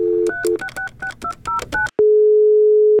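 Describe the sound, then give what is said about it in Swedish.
Telephone dialing to call a library: a quick run of beeping keypad tones, then one long, steady ringing tone on the line. “Nu tänker jag att vi ska ringa till ett bibliotek. Ja, det kan jag ordna.”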